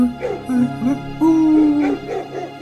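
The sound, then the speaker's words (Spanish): Dogs bark in the distance: several yelping, whining barks, some drawn out and some short, fairly loud and irregular, with no talk over them. “¿Sabes que yo a lo lejos me parece escuchar a algunos perros?”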